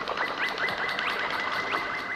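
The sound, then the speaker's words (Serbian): Sparrows chirp as they fly overhead, giving many quick, bright, overlapping tweets and short rising sweeps. The chirping carries on steadily over a constant background hiss. “Iznad njih letali su vrapci.”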